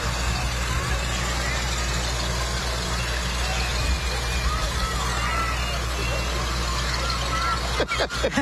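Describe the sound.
Farmall 1206 diesel tractor driving in a parade, its engine a steady, loud low rumble throughout, with a few sharp knocks near the end.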